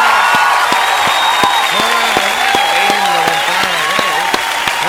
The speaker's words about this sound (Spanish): Así que un aplauso para la música